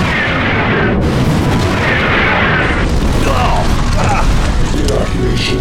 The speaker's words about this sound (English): Distronic missiles away.